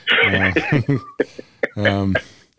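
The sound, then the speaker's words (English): Coughing and throat clearing from cigar smoke: a few short, raspy voiced bursts with brief gaps between them, moderately loud and close. “Now it's getting smoky back here and I'm coughing.”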